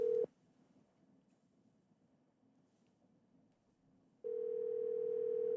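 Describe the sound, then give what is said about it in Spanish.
A phone call rings through with a steady low ringback tone. The tone ends just after the start, a quiet gap of about four seconds follows, and then the tone returns and holds to the end, with no talk. “A ver, ahí sí entró la llamada. Ahí está.”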